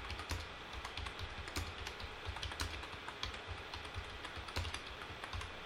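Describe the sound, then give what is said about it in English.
Rapid typing on a computer keyboard: many quick, fairly even keystrokes clatter continuously from start to finish, with no talk. “Let me type this here.”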